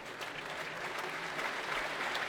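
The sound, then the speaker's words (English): Faint, steady applause from a concert audience for guitarist Mats Bergström, an even patter of many hands clapping at a classical music performance. “And that applause is for Mats Bergström to perform Electric Counterpoint by Steve Reich.”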